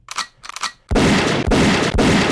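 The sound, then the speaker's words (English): A machine gun sound effect fires from a soundboard. A few short crackling bursts lead into loud, dense automatic gunfire broken by heavy low booms. “why don't we have a machine gun that we've never picked a machine gun button for the board? Now's the time.”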